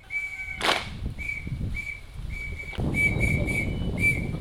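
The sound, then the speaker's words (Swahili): A whistle leads a girls' acrobatic marching drill in South Sudan with a rhythmic series of many short, high, shrill blasts, evenly spaced, along with a sharp crack near the start and steady rustling noise beneath. “Wamepanga mistari, miguu na mikono inakwenda pamoja. Filimbi ndio inawaongoza.”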